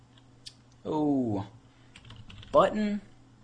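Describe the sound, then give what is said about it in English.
Someone types code on a computer keyboard: sparse, faint keystroke clicks, with two short murmured vocal sounds in between, all quiet. “I'm going to come all the way down here, beneath all of my code, hit Enter Return a couple times, and I'm going to type,”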